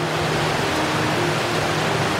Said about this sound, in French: Ici, les eaux thermales se mélangent aux eaux glacées de la rivière,